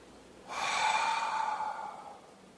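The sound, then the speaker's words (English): A single long breath exhaled by a man to demonstrate exhaling: an airy, breathy rush that starts abruptly, holds steady, then fades out over nearly two seconds, heard alone with no talk. “I've just exhaled a breath.”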